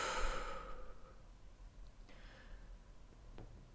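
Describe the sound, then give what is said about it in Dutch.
A deep breath in and out during a relaxation exercise: a clear, airy sigh-like breath at the start that fades into quiet, fainter breathing. “Adem een keer diep in. En uit.”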